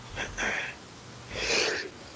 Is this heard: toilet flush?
no